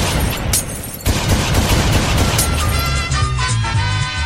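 Pistol gunshot sound effects, a dense, loud volley of sharp cracks fired in rapid succession with barely any pause between shots.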